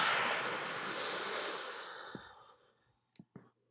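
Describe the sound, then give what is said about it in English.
A deep exhale during a guided breathing exercise before writing: a loud, breathy rush that slowly fades over about two and a half seconds, followed by a couple of faint, short breath sounds. “let's all take a deep breath together. So deep breath in and exhale.”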